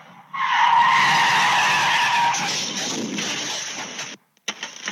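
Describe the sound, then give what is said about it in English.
Tires squeal loudly as a car driven by a suspected drunk driver skids sideways after clipping two parked cars outside a family home, a sustained harsh screech lasting about four seconds that cuts off abruptly, followed by a brief gap and faint clattering noises. “A suspected drunk driver clips two parked cars before skidding sideways,”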